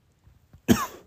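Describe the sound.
A single sharp cough from someone with something caught in the throat. It bursts out loud after a few faint small sounds, then trails off rough and breathy.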